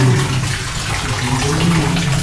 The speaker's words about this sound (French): Attention Attention, l'eau chaude sort de là.